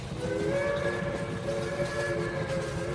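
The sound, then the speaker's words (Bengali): Steam train sounding its whistle as it starts moving: a loud, sustained multi-tone whistle holding a steady pitch over continuous low rumbling. “ট্রেনটা সজোরে whistle বাজিয়ে ভোঁস ভোঁস করে ধোঁয়া ছেড়ে ধীমে তালে চলতে শুরু করল।”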